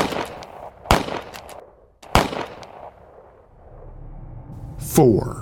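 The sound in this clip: Gunshots from a .22 Magnum fired at nearly point-blank range: a few loud, sharp cracks spaced apart, each with a quick trailing decay, over a low rumbling background.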